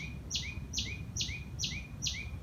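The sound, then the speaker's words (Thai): Birdsong: a bird repeats the same bright, two-part chirp five times at an even pace. The calls are faint over a steady low background rumble. “เสียงที่มักจะดังชัดเจนกว่าทุกเสียงก็คือนกนานาชนิดที่ขับขานเป็นจังหวะเป็นทำนองให้เราได้ยินทุกวันนั่นแหละครับ”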